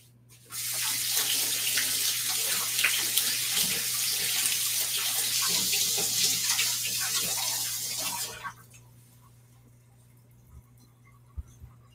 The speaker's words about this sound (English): Let me rinse my hands off again.